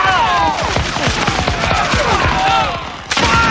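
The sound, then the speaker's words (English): A musket volley fired by redcoat soldiers at militia in battle: many sharp, overlapping reports crackle densely over a sustained tonal backdrop, with a fresh loud burst near the end. “Fire! The redcoats shoot and militiamen fall.”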